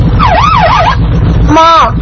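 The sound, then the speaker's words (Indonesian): A police car siren on patrol, loud and sweeping rapidly up and down in pitch in a wavering wail, then switching to a shorter, different siren tone over a low engine rumble. “ada mobil polisi yang sedang patroli, teman-teman. Mobil polisi.”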